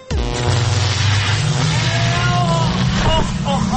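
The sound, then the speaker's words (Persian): A time machine sound effect, loud and sustained for about four seconds. It is a dense, engine-like whooshing drone with warbling tones running through it. “و اما بریم ببینیم که این ماشین زمانش امروز روشن کرده کجا رفته.”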